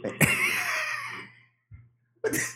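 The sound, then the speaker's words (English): Deliberate, exaggerated throat clearing: a sharp rasping burst draws out into a long, harsh rumble, then a short grunt follows, and another abrupt clear comes at the end. “the throat clearers are clearly styling. These are juiced throat clears.”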